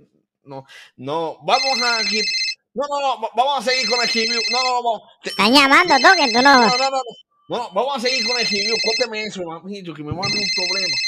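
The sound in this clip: A telephone ringtone for an incoming call: a bright, high-pitched ringing pattern repeats several times over a loud, warbling, voice-like melody.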